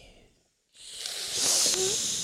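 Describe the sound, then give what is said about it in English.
A long hissing inhale drawn through the teeth: a faint hiss fades out, and after a brief silence a sustained airy hiss starts and grows louder toward the end. “A long inhale through the teeth.”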